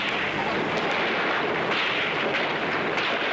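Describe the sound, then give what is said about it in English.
Gunshots in archival film footage of a massacre, a few sharp cracks scattered through a dense, steady wash of noise. “This film helps show the flash of the gun from the apartment window and the soldiers reacting. Those early shots are what set off the massacre.”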